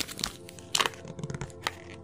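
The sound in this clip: Tarot cards being picked and pulled apart: faint crisp snaps and papery rustles, a few sharper clicks standing out among soft shuffling.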